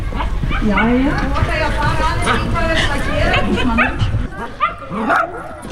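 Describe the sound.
Several dogs barking and yipping where many dogs are gathered, with whimpers mixed in. The barks come in a busy, overlapping stream throughout, under steady talk.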